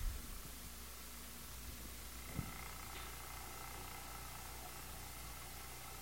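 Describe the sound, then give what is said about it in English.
A pump forces air through an opened valve with a faint, steady whirring hum that holds evenly throughout, broken once by a brief soft knock. “and I'm going to open the valve here. And I'm pumping the air.”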